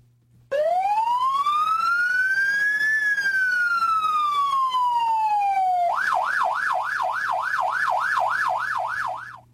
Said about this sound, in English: Would be funny if I thought the problem was with the siren, so I bring a better siren this week.